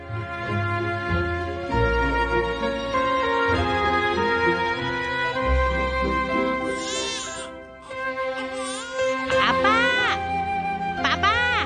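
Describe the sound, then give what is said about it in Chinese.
A hungry baby cries in a few wavering, high-pitched wailing bursts that come in the latter half over a steady, dense background. “做乜 B B 成日喊噶？ 哦，佢肚饿啊”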